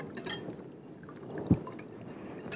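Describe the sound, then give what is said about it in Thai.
Liquid being slowly poured, one mixture into another, to be stirred into a gel: a soft, low trickle with a single brief splash midway. “ขั้นตอนที่3คือเอาส่วนที่1กับส่วนที่2เทเข้าร่วมกันค่อยๆเทเข้าร่วมกันแล้วก็คน นะครับค่อยๆเท ค่อยเทนะครับ”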